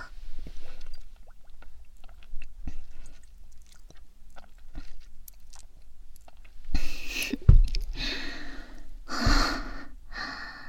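Chewing and mouth sounds while eating: soft, irregular crunchy clicks and smacks, then a few louder breathy gasps and snorts near the end.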